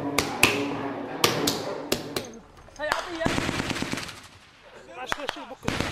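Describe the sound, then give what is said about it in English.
Gunfire from rebel fighters on a front line in Misrata: sharp, loud shots and short rapid bursts ring out irregularly, separated by quieter stretches. “It looks and sounds frenetic, but most days the rebel fighters fire pot shots at an enemy they can't see.”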